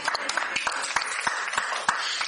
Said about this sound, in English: Yeah, yes, it's okay. You can clap for that.